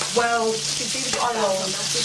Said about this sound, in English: Just put it in the crusty egg pan. Yeah, yeah. Like I keep saying, it's optional. I'm having a fried slice tonight.